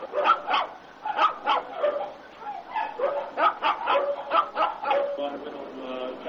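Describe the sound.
Dogs bark at a non-government animal treatment and care shelter that mainly houses dogs, giving many moderately faint, overlapping barks and yips in an uneven, continuous rhythm.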